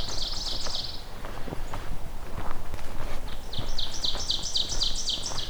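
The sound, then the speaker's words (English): An ovenbird and a blue-winged warbler sing beside a trail north of a pipeline corridor: a high buzzy song at the start, then a long run of repeated high notes growing louder, over steady footsteps. “I've got the oven bird here, I've got blue wing warbler here, and I was hearing pine warbler briefly.”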